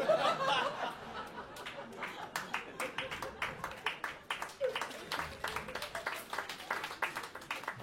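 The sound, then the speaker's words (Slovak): Lukewarm applause from a stand-up comedy audience: scattered, uneven hand claps that come in loose bursts throughout, never building into a full ovation. “Áno, tlieskajte mi, mám to rád, aj keď je to také vlažné.”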